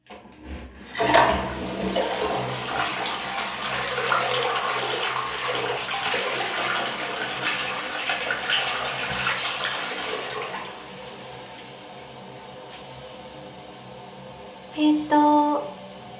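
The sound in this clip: A toilet flushing with a loud rush of water that lasts about nine seconds, then drops to a quieter trickle as the tank refills. A brief clunk comes near the end.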